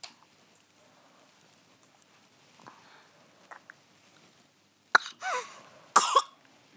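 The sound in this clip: A patient with a dry cough coughs on request, giving a few harsh, short coughs in two quick bursts near the end. Before them there is only a quiet background with faint murmurs.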